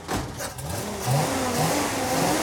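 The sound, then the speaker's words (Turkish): A flathead V8 car engine rumbles loudly and roughly, and its throaty roar swells partway through, with no talk over it. “Gerçek bir düz kafa V8. Onunla uğraşmayı söylemiştim. Evet. Şunun bir de sesini duysan.”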